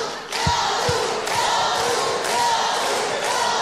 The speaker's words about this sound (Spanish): Por favor, escucha tu hermoso público.